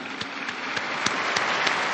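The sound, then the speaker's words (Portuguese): Applause for two newly beatified women at a beatification celebration: dense, steady clapping from a large crowd that continues evenly throughout. “Às duas beatas, um aplauso, todos juntos. Alle due beate, un applauso, tutti insieme.”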